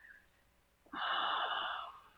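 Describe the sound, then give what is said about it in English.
A deep breath drawn in: one long, airy inhalation lasting about a second, loud and alone, preceded by faint hiss and fading out at the end. “Take a breath.”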